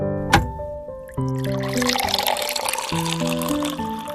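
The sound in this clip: Lemonade being poured into a glass, a steady bubbling, gurgling stream that starts after a brief click and runs for about three seconds over soft background music.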